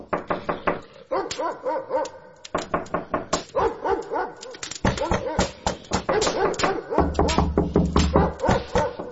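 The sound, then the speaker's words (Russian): A dog barks in a yard, many sharp, loud barks in quick bursts that go on throughout, with brief gaps between volleys. “Тут послышался на дворе лай и стук в ворота.”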